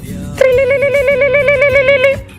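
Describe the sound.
A telephone ringing tone heard while placing a call: one long, loud warbling electronic tone that sounds on its own for almost two seconds, then stops.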